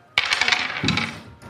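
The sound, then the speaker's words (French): A die rolled during a tabletop role-playing game clatters on a hard surface. A sharp first impact is followed by a quick run of rattling bounces and a last small click, with no speech. “Vas-y, lance un dé et fais moins de 30.”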